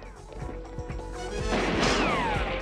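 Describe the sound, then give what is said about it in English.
Gunshot bullet ricocheting off a garbage can during a street chase: a few sharp impacts lead into a loud crashing clang. Near the end comes a falling, whining ricochet tone. “The bullet ricochets off the garbage can, and Harry continues his pursuit, drawing his own weapon.”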